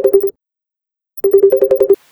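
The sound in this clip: An electronic telephone ringtone trills in two bursts of rapid, even tonal pulses, a short burst of about four pulses and then a longer run after a pause. No voices are heard.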